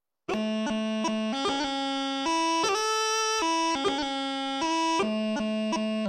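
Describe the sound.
A bagpipe goes from low A into a C doubling with the G grace note fired late, which adds an unwanted extra C. The steady reedy tone sounds unbroken, with quick grace-note blips between held melody notes.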